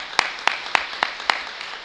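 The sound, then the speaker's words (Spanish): Applause for a fourteen-member youth cadet sports team: a short run of about five sharp, evenly spaced claps, rhythmic and fairly faint, with no talk over them. “que le podamos dar un aplauso previo a nuestro equipo cadete”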